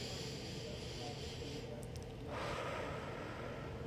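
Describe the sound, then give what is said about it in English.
One deep breath drawn in as part of a relaxation exercise, a soft airy inhale that swells about midway and then holds over a faint, constant hiss. “So the first thing is just take a deep breath.”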